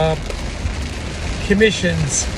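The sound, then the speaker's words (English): Rain falls outside as a steady, even hiss that runs through the whole clip. A voice speaks briefly and faintly over it partway through. “All right, raining outside. I hope it's not too noisy for you.”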